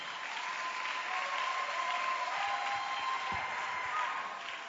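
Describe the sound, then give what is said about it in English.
Steady applause from a church audience at a morning service, dense continuous clapping with no pauses, fairly loud throughout, with faint crowd noise mixed in and a sustained tone underneath. “Keep clapping.”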